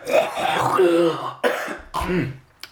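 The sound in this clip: A person clearing their throat: a few rough, gravelly, voiced bursts in quick succession, the first long and rasping, the next two shorter, ending with a faint brief click.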